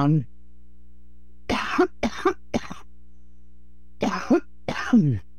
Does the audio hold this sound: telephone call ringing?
no